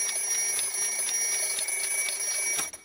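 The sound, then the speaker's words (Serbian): An alarm clock rings with a loud, high, rapidly pulsing tone that stays steady and then cuts off just before the end. “Jači budilnik.”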